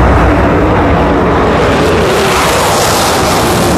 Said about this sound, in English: a set of landing gear screeched down upon the pavement at London's Heathrow Airport. The Concorde is no more